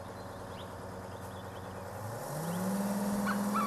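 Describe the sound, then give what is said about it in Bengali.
A bus arrives, its engine drone swelling louder in the second half as the pitch of the motor rises steadily. “চলুন চলুন বাস এসেছে চলুন”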